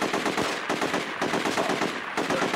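Sustained rapid automatic gunfire from the video game GTA 4, a dense rattle of shots in a few bursts with brief dips between them, fairly faint overall.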